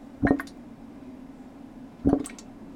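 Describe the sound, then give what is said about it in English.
Carbon dioxide from yeast fermenting beer bubbles through an airlock in a room behind a farm bar: two soft gurgling plops about two seconds apart over a low, steady hum. “That's the sound of yeast turning sugars into alcohol and emitting carbon dioxide through an airlock.”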